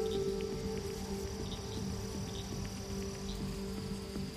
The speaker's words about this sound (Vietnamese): tiếng ếch nhái ẩn ương kêu lên làm tăng thêm sự buồn khổ cho một gia đình vừa mất đi người thân.